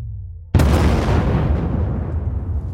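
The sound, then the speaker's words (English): A huge mine explosion erupts beneath a Confederate regiment before dawn. A quiet low rumble gives way to one sudden, violent blast, which swells into a long, roaring rumble that slowly fades. “At 4:45 a.m., the earth under a Confederate regiment swells, then explodes like a volcano.”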